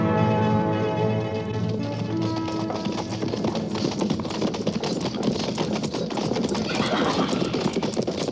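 Cavalry patrol horses clip-clop in a dense, steady clatter of hooves, with music heard at the start.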